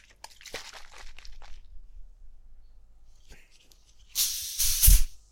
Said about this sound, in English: Your can crack. Well, that's a Pepsi Max bottle reopen after being shook.